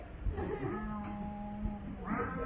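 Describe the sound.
A cat meows twice, fairly faint: first a long, drawn-out wail, then a shorter, brighter meow near the end.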